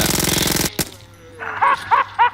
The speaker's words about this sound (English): I saw it this time. I saw you shoot down those two zombies.